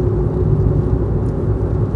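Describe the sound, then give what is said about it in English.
Corvette sports cars drive past in a row, heard as a loud, steady low engine rumble and road drone that holds without a break, with no voices. “It's three Corvettes in a row, a red one and two blue ones.”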